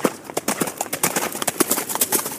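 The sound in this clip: Police horses clip-clop during mounted police training near Berlin, with many irregular hoof strikes at a walking pace, steady and fairly loud throughout.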